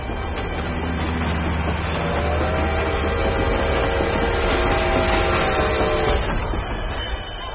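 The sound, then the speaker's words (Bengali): A train runs over a person who has thrown themself beneath it between two compartments, in snowy conditions. Wheels rumble loudly and steadily on the rails under a sustained, high, tonal squeal, and a thin high whine rises near the end. “ওপর হালকা ভর রেখে দুটো কম্পার্টমেন্টের মাঝখানে ট্রেনের নিচে নিজেকে ছুঁড়ে দেয় অ্যানা।”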